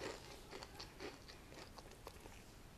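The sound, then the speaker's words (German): Someone eating real potato chips, with faint, irregular crunches and chewing bites scattered at a soft, low level. “das waren echte Chips. Völlig selbstlos musste ich sie essen.”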